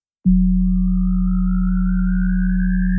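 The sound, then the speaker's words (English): A synthetic sideband-effect test signal starts abruptly after a moment of silence. Two steady, loud low tones, one deep and one hum-like, hold constant, while a faint thin whistle above them slowly rises in pitch. “Test number 2. Sideband effect 40 and 185 hertz.”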